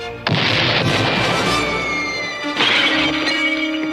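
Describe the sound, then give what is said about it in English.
A 61-millimeter tank shell blasts against an armored assault suit in an animated cartoon: a sudden loud crashing boom with a long roaring rumble, then a second burst of crashing noise. “This armored assault suit will stop a 60-millimeter shell. Oh, too bad. This tank uses 61-millimeter shells. Whoa! That's 1 millimeter too many!”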